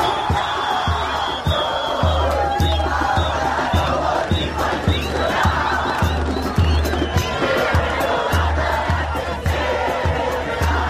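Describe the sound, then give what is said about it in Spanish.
Vast street celebrations by crowds of millions in Buenos Aires: a roaring, chanting mass of voices over a steady, regular low thumping beat, with the loud roar continuing throughout. “Este es el sonido de las celebraciones con millones de personas en Buenos Aires.”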